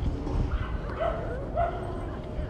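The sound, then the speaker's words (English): Dogs yipping at the dog run in Tompkins Square Park: two short, faint yips about half a second apart, over low background noise. “You can hear the doggies in the background.”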